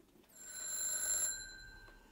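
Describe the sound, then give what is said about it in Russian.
A single electronic telephone ring, a bright tone with stacked overtones lasting about a second, rather faint, followed by a brief faint tick. “но раздался телефонный звонок.”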